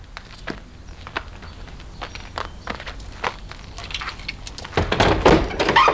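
A window is being opened, with a run of light knocks and thunks followed by a louder, rougher scraping rush near the end.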